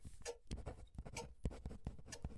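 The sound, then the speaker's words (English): A pen scratches across the pages of a notebook in many quick, quiet strokes of uneven rhythm, with soft taps between the scrapes. “Denise is busy writing in her notebook, but she notices my hesitation.”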